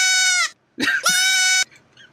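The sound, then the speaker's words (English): A baby goat screaming: two loud, harsh, high bleats in quick succession, followed by a much fainter short cry. “by the way, that's a baby goat screaming.”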